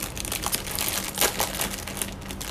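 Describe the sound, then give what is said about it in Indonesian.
An instant noodle packet is crinkled in a kitchen, giving a loud, continuous crackling rustle with sharp irregular crunches and no voices. “nih ASMR bungkus mie”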